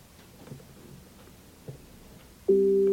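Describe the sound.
A steady, loud electronic tone sounds from an Echo Show 15 smart display after its mic on/off button is held for a few seconds. A few faint taps come first, then the tone holds until the end.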